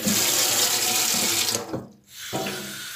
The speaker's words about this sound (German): Ich glaube, ich muss mir jetzt erstmal meine Finger waschen gehen.